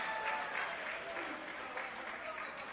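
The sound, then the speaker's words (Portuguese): A church audience claps together in a steady, even patter of applause that stays faint and continuous throughout. “Palmas que glorifica.”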